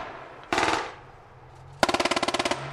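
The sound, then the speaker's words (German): Gunfire opens on two Fennec armoured reconnaissance vehicles at the edge of a clearing: a short, sharp burst, a brief pause, then a rapid automatic volley of many crackling shots in quick, even succession. “Die beiden Fennec-Spähpanzer sind inzwischen am Rand der Lichtung angekommen und offenbar bemerkt worden. Jetzt hat er den Feind aufgeklärt. Dieser eröffnet das Feuer.”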